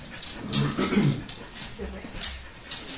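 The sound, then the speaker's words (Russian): A golden retriever gives soft whimpers and small yips, faint and partly buried under people talking. “Знакомьтесь, это золотистый ретривер по имени Мира.”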